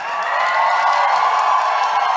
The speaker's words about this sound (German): Sie werden von den anwesenden Presseleuten begeistert begrüßt.